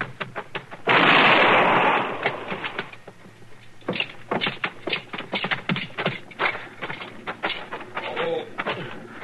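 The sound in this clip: A single loud gunshot is fired at a running man, a sharp, explosive burst with a lingering decay, followed by many rapid, irregular tapping and clattering sounds.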